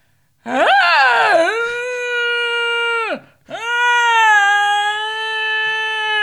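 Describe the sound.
A human voice imitates a whining French bulldog with two long, loud, nasal whines. The first wavers and dips in pitch. The second, after a brief break, is steadier and held at a level pitch.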